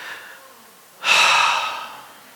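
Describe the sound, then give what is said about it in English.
A single deep breath, drawn loud and long and trailing off gradually, follows a quieter stretch of near silence. “Take a deep breath with me, will you?”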